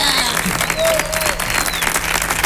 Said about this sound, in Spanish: Aranzón, por favor, un aplauso.